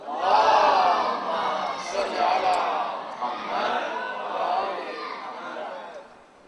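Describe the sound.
A crowd at a religious gathering loudly recites salawat to welcome a visiting Maulana: a dense swell of many voices chanting together, strongest at the start and easing off toward the end.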